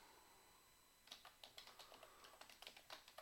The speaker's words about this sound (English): So I'll type out a definition, but but it's going to look something like this.